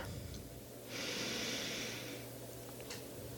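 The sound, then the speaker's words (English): A single slow, deep breath drawn in during a calming exercise: a soft, breathy hiss lasting about a second, fairly quiet and heard alone with no talk. “So let's take another deep breath in,”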